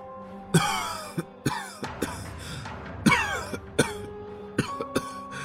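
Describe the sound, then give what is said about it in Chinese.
An old man coughs uncontrollably in a long run of harsh, rasping fits. Many sharp bursts come in irregular succession, with short strained breaths between them. “开始不受控制地咳嗽起来”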